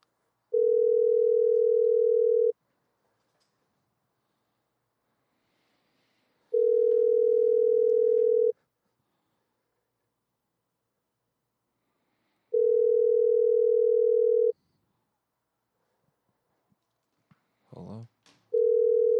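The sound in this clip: Telephone line tone during a prank call: three long, steady, mid-pitched tones of about two seconds each, separated by longer silences, then a brief rustle and the start of a fourth tone.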